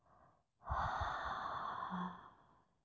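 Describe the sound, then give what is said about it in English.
Slow breathing, in through the nose and out through the mouth: a short soft breath, then a longer, louder, airy breath lasting about two seconds before it fades, with no talking. “just keep breathing through the nose. Hold and release throughout the mouth.”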